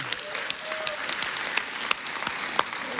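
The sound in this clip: Church audience applauding to welcome campuses joining the worship service: steady, dense clapping fills all three seconds, with a few sharper, louder claps standing out above the wash.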